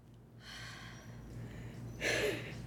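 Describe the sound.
Faint controlled breathing through the nose before an ice bath: two soft rushes of air, the second one stronger and sharper, over a low background hum.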